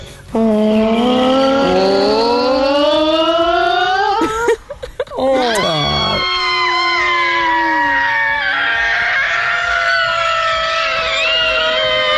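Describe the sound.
A family voices its own sound effects for a ride on the new dinosaur ride at Tatum Park. Loud, sustained wailing screams climb steadily in pitch, a rough growling burst breaks in midway, then long overlapping shrieks continue.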